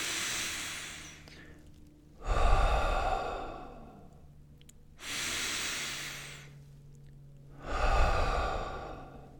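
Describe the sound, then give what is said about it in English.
Slow, deep human breathing with long, breathy, hissing inhales and exhales. A few full breaths follow one another at an unhurried, even pace, with no talking. “just kind of maybe take a couple deep breaths right now. And let's do it again.”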